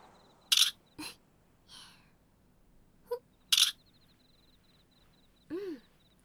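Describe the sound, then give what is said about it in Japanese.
Camera shutter clicks as photos are taken of someone posing: a few sharp, bright clicks spaced unevenly, with a faint steady high electronic tone between them. “はい、ピース。この写真はマネージャーのためだけの写真だよ。もっと写真撮ろうよ。”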